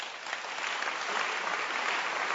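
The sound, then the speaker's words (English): Audience applause at a Salvation Army-themed church gathering, a steady dense crackle of many hands clapping that holds at an even, fairly loud level throughout, with no voices over it. “Can you clap for William Booth?”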